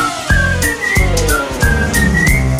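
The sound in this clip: A person whistles a bright tune over a musical backing, the melody moving through short, steady phrases above a rhythmic accompaniment, with no voices.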